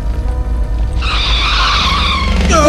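Tires screech as a car skids with its rear wheel jammed on a road between woods and rocky hills. A high, wavering squeal rises about a second in over a steady low engine rumble and continues to the end.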